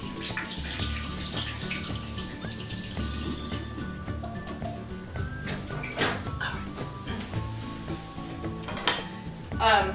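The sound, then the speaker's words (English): Tap water runs into a kitchen sink while hands are washed under it: a steady, continuous rushing splash with some brief louder splashes near the end. “Go over here and sink and wash my hands off here.”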